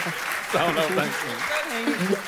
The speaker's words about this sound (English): Give it up for the Blizzards!